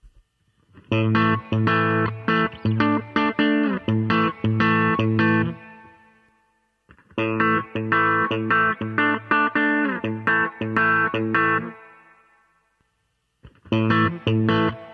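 Distorted electric guitar strings plucked with the fingers, gain setting unchanged, in three loud bursts of quick, ringing notes separated by short pauses, with no talking.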